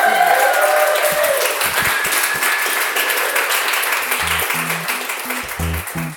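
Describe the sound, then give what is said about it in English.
An audience at a live event in San Francisco applauds a guest with dense, sustained clapping that slowly thins and softens, while voices come through near the end. “Let's give it up for Allison.”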